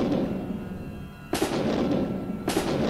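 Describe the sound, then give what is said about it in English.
Gunfire sound effect of soldiers firing their guns: two loud, sharp cracks about a second apart, each followed by a lingering rumble. “They were joined by others, and the soldiers became frightened. They fired their guns.”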